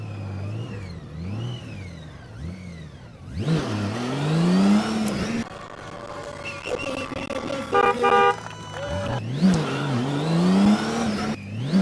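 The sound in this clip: A car engine revs while accelerating. Quieter revs at the start give way to two loud bursts with pitch sweeping up and down, and a steady horn-like toot sounds between them.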